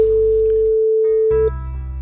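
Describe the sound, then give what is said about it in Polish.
A telephone ringing tone as a radio host calls a listener: one long, steady, mid-pitched beep that stops abruptly, over a low background hum. “Do Bogusi teraz zadzwonimy.”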